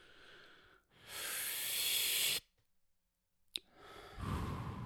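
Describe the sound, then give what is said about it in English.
A group of people takes a communal breath together: a long, loud, breathy inhale, then a moment of near silence broken by a brief click, then a soft, airy exhale. “Should we take a communal breath?”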